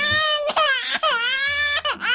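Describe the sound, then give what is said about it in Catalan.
A baby cries at home early in the morning: four loud, strained wailing bursts with high, shrill harmonics, separated by brief gasps for breath. “Tranquil, allò que estàs al llit encara, i en sec sents que comença a plorar un nadó.”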